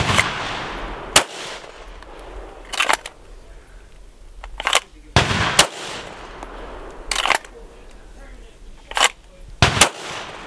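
Sharp, loud firearm gunshots ring out during a close-range shooting drill, several single cracks spaced a second or two apart, with a quick pair near the end and a low murmur between them.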